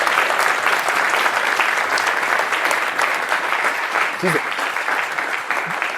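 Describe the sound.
Applause at a school event for a teacher leaving the school, a dense, steady patter of many clapping hands that holds at an even loudness throughout.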